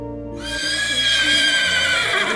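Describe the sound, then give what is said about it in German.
A horse pulling a wedding carriage whinnies loudly after a brief silence, a bright, wavering neigh that carries on to the end. “Jetzt geht es mit der Pferdekutsche ins Hotel.”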